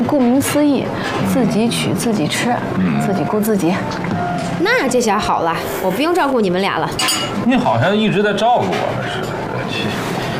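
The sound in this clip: Dishes and cutlery clink at a buffet restaurant, light scattered chinks of plates and silverware running beneath steady conversation from several people.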